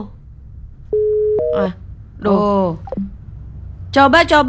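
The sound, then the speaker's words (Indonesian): A steady electronic telephone line tone sounds briefly on a call, then steps up to a higher tone. Voices talk afterward over a low background hum. “iki wis tak angkat lho. Kok bergetar-bergetar tok? Gimana sih ini teleponnya?”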